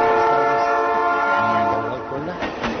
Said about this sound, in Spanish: Chin, ya viene el tren.